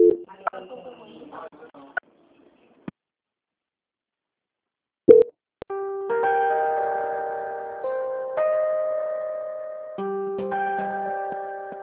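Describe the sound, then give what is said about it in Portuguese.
A telephone call transfer tone on a bank call: steady electronic tones in a stepped, repeating pattern, preceded by a few sharp clicks and brief faint voice sounds. “A linha vai ficar muda por um instante. Peço que a senhora guarde linha, tá ok? Tudo bem. Momento. Transferência.”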